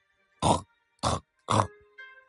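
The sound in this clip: Pig grunting, a few short, rough, loud grunts spaced at regular intervals, with a softer one at the end.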